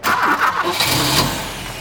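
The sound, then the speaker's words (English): A vintage 1960s Jaguar XK150S is started with its temperamental starter motor. A brief pulsing crank gives way to a running engine whose loud mid-pitched rumble settles and eases slightly toward the end. No talk. “I'm fixing a vintage Jaguar XK150S. They were made in the 1960s and have temperamental starter motors. Okay, try it again!”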